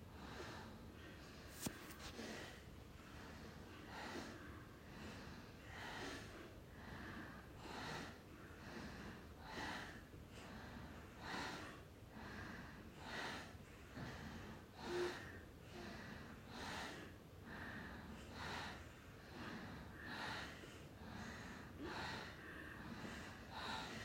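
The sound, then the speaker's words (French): Faint, rapid nasal breathing from an alternate-nostril breathing exercise: many short, sniff-like puffs of air in a steady, regular rhythm, each blowing through the nose in turn. “Vous expirez par les deux narines. Vous bouchez la narine droite et puis on commence. Un souffle à gauche, l'expire à droite, l'inspire à droite, l'expire à gauche.”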